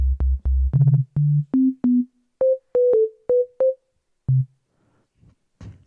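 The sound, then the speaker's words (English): Synthesized sine wave tones from a harmonic-drawing synth: many short, pure beeps with gaps between them, stepping upward in pitch, then a lower note and a few faint blips at the end. “If you want to make a sine wave, you can just clear everything. Right click, clear. Make a sine wave. Just remove the DC offset.”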